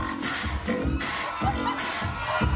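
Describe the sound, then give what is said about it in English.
A crowd cheers and shouts for Detroit dancers performing the JIT, a street dance. The voices come in choppy, overlapping bursts that rise and dip over a couple of seconds. “That's the sound of a crowd cheering on Detroit dancers doing what's called the JIT.”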